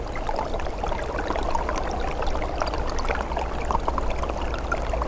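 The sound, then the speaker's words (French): A trickle of water flows beneath ice, making a steady, gurgling rush with small bubbling splashes throughout and no pauses. “Un filet d'eau se fraye un passage sous la glace.”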